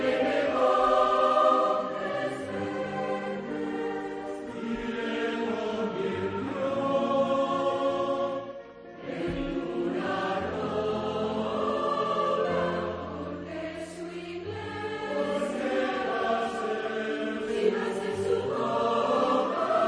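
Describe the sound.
Choral singing by about 400 children from 11 schools in Navarra and roughly a hundred adults, recorded in Pamplona Cathedral. Full harmonies hold steady throughout, with one brief dip in the middle.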